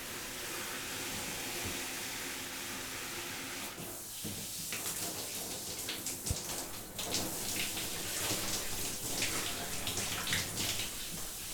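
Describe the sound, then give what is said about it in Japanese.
Warm water wetting hair during a hair wash: a steady, continuous hiss of running spray that turns more uneven and spattery partway through as the water breaks over the hair, with no talk. “髪の毛を濡らします”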